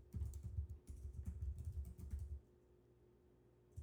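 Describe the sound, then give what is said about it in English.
Soft typing on a computer keyboard makes a quick patter of faint key clicks over a low hum. The clicks stop partway through and leave only the quiet hum. “Let me just type this here.”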